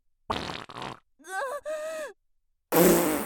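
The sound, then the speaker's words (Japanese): A fart from someone with an urgent, cramping stomach. A rough, sputtering burst is followed by a wavering, pitched squeak and a final loud, noisy blast. “おなら出せば 少しマシになるかと思ったのに”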